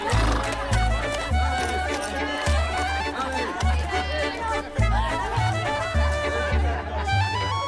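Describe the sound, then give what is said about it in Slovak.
A horse neighs under a window, giving wavering whinnying cries over a pulsing low rhythmic backing and busy chatter that continue throughout. “koník zaerdžal pod oknom”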